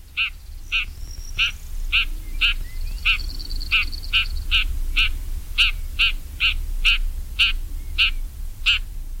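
Short, harsh chuck-like calls of a shrike, repeated many times at a steady, even rhythm. The calls are mid-pitched and fairly loud over a low background rumble.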